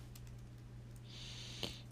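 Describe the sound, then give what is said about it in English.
Soft clicks of typing on a computer keyboard, a few faint, scattered keystrokes over a quiet, low hum. “I'm trying to type in like Supreme.”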